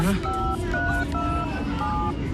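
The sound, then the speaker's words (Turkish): Telephone keypad tones as a call is dialed to a hospital for an ambulance: four short beeps in an uneven sequence, heard over constant background noise. “Hastaneye ara sen. Ambulans göndersinler.”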